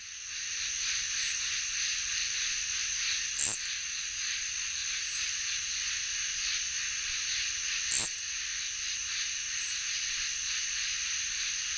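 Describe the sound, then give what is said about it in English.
Insects fill a thicket at night with a steady, unbroken high-pitched drone. Two sharp, brief clicks break through the hum partway in. “At night, it seems as though there's nothing else out there but bugs.”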